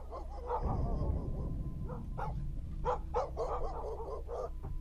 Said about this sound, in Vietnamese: Xa xa ở trong làng, tiếng chó cắn ma nhấm nha nhấm nhặng.